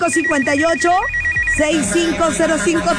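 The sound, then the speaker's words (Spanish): Ringing tone of a telephone after a number is dialed, a steady pulsed tone through the first half, with voices heard throughout. “vámonos. Vámonos a marcar”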